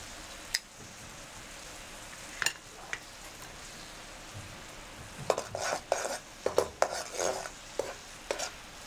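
Coconut cream boils in a cooking pot with a steady, low bubbling hiss. Soft pops and clicks scatter through it and come more often in the second half.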